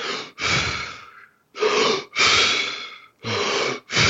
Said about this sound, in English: Wim Hof breathing method, where it's essentially controlled hyperventilation. So it sounds a little like this.